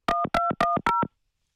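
Telephone keypad dialing tones while redialing a number that may have been blocked: eight short, clean keypad beeps in four quick pairs, then silence.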